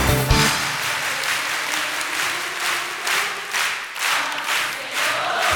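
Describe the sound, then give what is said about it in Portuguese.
An audience at a church worship service claps hands together in a dense, loud, steady rhythmic beat, with a crowd murmur underneath. “Palmas pra Jesus. Palmas pra Jesus. Palmas pro Senhor. Você, palma.”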